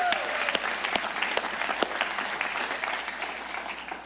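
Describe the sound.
A church audience applauding in the auditorium, a steady spread of many hands clapping, with some sharp individual claps standing out, that gradually softens toward the end.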